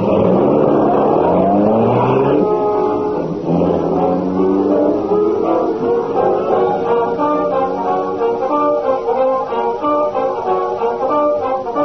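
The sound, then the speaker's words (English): A car pulling away and driving on, its loud, steady engine drone shifting in tone as it moves off and keeps going. “Take the wheel, kiddo. Let's see how soon you can get us to the old factory.”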